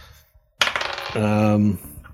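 Dice clatter across a table in a tabletop role-playing game: a sharp initial hit, then quick rattling bounces. A short steady tone sounds briefly partway through.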